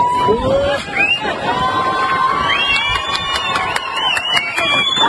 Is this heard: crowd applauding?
yes